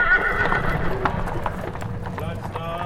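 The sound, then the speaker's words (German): Hooves clip-clop steadily as a horse-drawn carriage sets off and rocks out of town, a quick run of many hoofbeats continuing under people's voices. “Beim Glockenschlag sitzt Goethe im Wagen und schaukelt aus der Stadt.”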